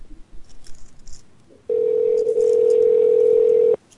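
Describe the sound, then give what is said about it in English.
A telephone dial tone plays as one steady, loud, unbroken hum lasting about two seconds, coming in after a stretch of faint background noise and then cutting off abruptly. “I like the part of the show where the phones ring.”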